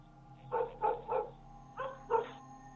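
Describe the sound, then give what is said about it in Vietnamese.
Dogs barking in a village at night: five sharp, mid-pitched barks, a quick run of three and then a pair after a short pause, against a low steady hum. “Vừa lúc tiếng chó cắn ma ở trong thôn vang lên.”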